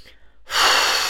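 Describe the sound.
A deep, breathy exhalation during a guided relaxation exercise. After a brief quiet moment it comes as a loud, sustained rush of air that holds steady to the end.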